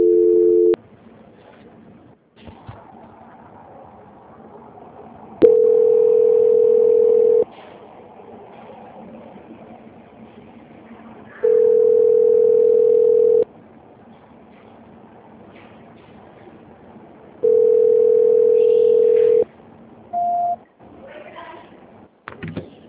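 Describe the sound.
Ringback tone of a phone call going unanswered: three long, steady beeps of about two seconds each, separated by longer pauses, with a clipped beep at the start and a short higher blip near the end, over faint background noise.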